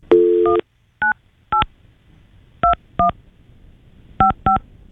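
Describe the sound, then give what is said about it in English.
Touch-tone keypad beeps dialing an international number from the U.S., starting with the 011 exit code: one longer opening tone, then seven short, loud beeps in an uneven rhythm with quiet gaps between them. “You got to dial 011, which is the U.S. International Exit Code. Yeah. All right. 011. And then you dial 98.”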